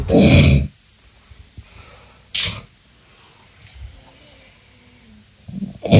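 Snoring from a sleeping man of about 30 who wears an anti-snoring mouthguard: a few loud, harsh, rasping snorts, the first long and the others shorter, separated by near-silent gaps.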